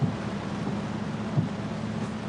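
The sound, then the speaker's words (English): Rain pours on a rental car's windshield while the wipers run, a steady dense hiss with a couple of soft low thumps. “Their rental car pulls to a stop at a curb, the windshield wipers battling the rain.”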